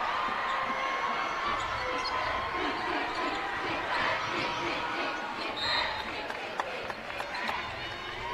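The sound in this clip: A basketball is dribbled on a court during a game, a few faint bounces barely rising above steady crowd noise.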